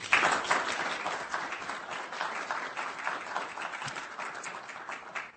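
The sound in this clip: Applause from an audience welcoming a speaker to a talk on federalism at the American Enterprise Institute: a dense, even wash of clapping that starts strong and tapers slightly toward the end.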